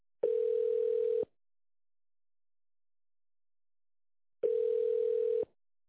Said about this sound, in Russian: Ваш звонок очень важен для нас. Оставайтесь, пожалуйста, на линии для соединения с оператором.